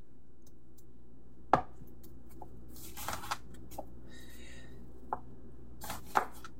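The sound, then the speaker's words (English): A sharp knife slices an onion across the roots, giving sparse crisp cuts against a cutting board. A few distinct knife strikes are spread irregularly over quiet moments. “Now over here, I have one onion and I'm going to just slice it across the roots.”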